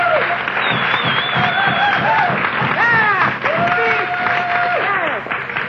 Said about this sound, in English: applause.